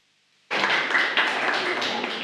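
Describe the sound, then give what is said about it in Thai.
Audience applause breaks out suddenly after a Thai presentation of an orange juice drink product, a dense, steady wash of many clapping hands that holds at an even level to the end. “ขอบคุณครับ ปรบมือด้วยครับ”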